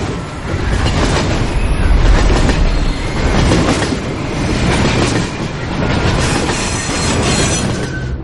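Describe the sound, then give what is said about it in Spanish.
A train races at full speed through a station with a loud, continuous rumble and clickety-clack of wheels on rails. Wheel squeal rises and falls over about eight seconds, with no voices. “El tren pasa a toda velocidad por la estación.”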